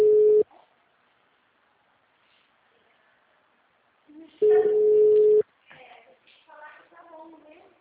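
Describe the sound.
A steady, low telephone tone plays while a call is being transferred. A short burst of the tone comes first, then a pause, then a second burst lasting about a second, followed by people talking.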